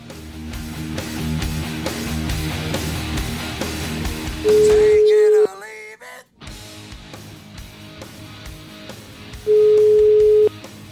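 Telephone ringback tone as an outgoing call waits to connect: two long, loud, steady beeps, roughly five seconds apart, standing out above fainter background sound.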